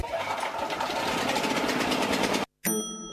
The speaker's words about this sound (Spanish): ¿Podemos poner un aire acondicionado con este grupo? Grupo Electrógeno. Ruido y luz versus silencio y oscuridad.